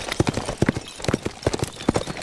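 Hooves of a ridden horse clip-clop in a quick, steady rhythm, with many sharp strikes in succession. They are clear and fairly loud, with no other sound.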